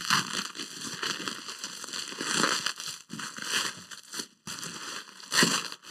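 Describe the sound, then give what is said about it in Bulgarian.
Crinkling, crackling and tearing of packaging as a heavily wrapped parcel is roughly torn open, a continuous run of rustling with several louder bursts and a couple of brief pauses. “Трябва да почна по-грубо да ги отварям. Дай на общия план да се вижда тук как е, да разопаковам някакви работи.”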